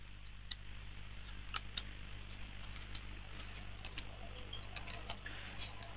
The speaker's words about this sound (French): Alors, je vais déposer les cartes et un stop quand vous le désirez.